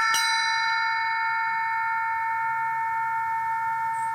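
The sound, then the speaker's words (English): A cowbell struck once gives a bright metallic clang, and its several ringing overtones hold steadily before slowly fading. “I think this is a cowbell. This one had a great sound, you know.”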